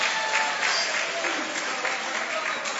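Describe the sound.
A church audience applauds during a worship service, giving dense, steady clapping that holds at an even loudness for the whole stretch.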